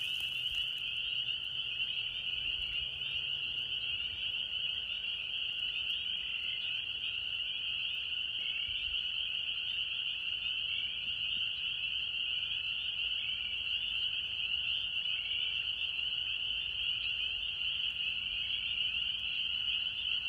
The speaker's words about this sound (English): Here is that lovely sound of the peepers.